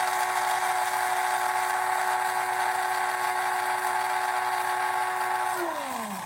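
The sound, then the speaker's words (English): An electric coffee grinder grinds seeds into powder with a loud, steady, high motor whine for about six seconds. Its pitch sags at the end as it winds down. “coffee grinder and we're going to grind it. We're going to grind it for maybe 10 or 15 seconds.”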